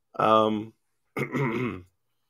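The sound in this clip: Two rough, voiced throat-clearing coughs from someone who is losing their voice. The first is short and the second longer, both loud and alone with no talk between them.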